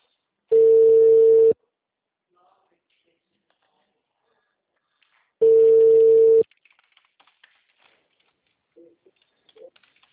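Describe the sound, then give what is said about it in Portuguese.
A telephone call's ringing tone: two long, steady buzzing tones about a second each, separated by a few seconds of silence, followed by faint scattered clicks and noises. “Tô ligando, me atende.”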